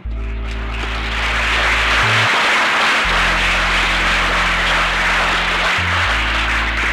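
Audience applause follows Irving Layton's reading of his Confederation Ode at Sir George Williams University in 1967. The clapping is dense and steady throughout, over a low, constant hum.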